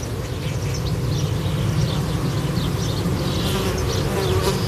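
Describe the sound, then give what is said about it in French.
Insects swarm inside an insect hotel, picked up with a parabolic microphone: a dense, continuous buzzing and crawling hum, steady and fairly loud the whole time, with faint higher flickers scattered through it. “vous approchez votre parabole de l'hôtel à insectes. On entend quand même que ça grouille.”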